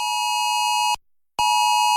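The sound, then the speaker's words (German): Mobile phone emergency alert test tone from Luxembourg's national warning system: a loud, steady, high-pitched electronic tone that cuts off for a short moment of silence, then resumes at the same pitch. “Am Montag führt Elu Alert einen nationalen Test der Sirene auf dem Handy durch. Nicht erschrecken.”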